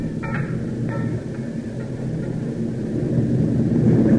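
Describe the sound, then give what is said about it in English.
Underground gas pressure mutters in an oil well at a drilling rig, a steady, dense low rumble that swells slightly toward the end, with a few faint ticks early on. “Hear that mutter? Gas pressure.”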